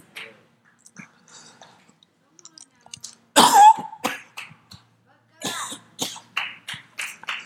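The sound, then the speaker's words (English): Coughing and throat clearing from a person with an irritated throat: a loud hacking burst midway, then a run of several short, sharp coughs toward the end, with faint small sounds between. “as soon as you hear a cough, you're like, you know. So I got to tell you, I'm not sick. It's just my throat is all messed up.”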